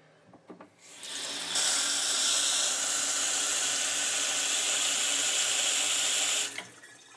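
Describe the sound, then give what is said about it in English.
A kitchen sink tap runs water in a steady, even rush for about five seconds, preceded by a few faint clicks and ending abruptly when it is shut off. “this is the sound of the tap in our sink in the kitchen.”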